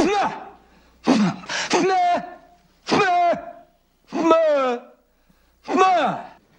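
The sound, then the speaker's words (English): A person strains to pop their ears by building pressure inside the head, making a series of voiced, groaning grunts separated by short pauses. “I'm trying to clear up my ears. You create a pressure inside your head. It opens up the eustachian tubes.”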